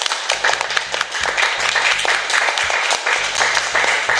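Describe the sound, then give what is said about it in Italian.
A crowd gives continuous applause to close a dinner-table group conversation. Many overlapping claps hold at a fairly loud, even level for the full stretch, with brief dips near the middle. “Un applauso”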